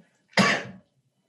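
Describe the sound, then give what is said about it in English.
A single short sneeze from a person with seasonal allergies, a sudden breathy burst that fades over about half a second, alone between quiet gaps. “Yeah, that was a sneeze.”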